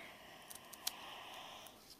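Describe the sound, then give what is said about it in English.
Scissors snip hospital wristband tags off a patient: a few faint, small clicks over a low background hiss. “Here's the scissors. Thank you. Okay, let's get these off.”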